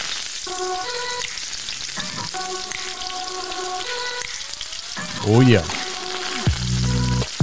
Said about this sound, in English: That's the sound of cooking with kale.